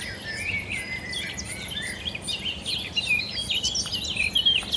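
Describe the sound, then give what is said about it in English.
Birdsong rises from reed beds, including a singing blackcap, with bright high chirping phrases repeated steadily throughout and no voices. “Two swallows, blackcap singing, something singing in the reed beds here.”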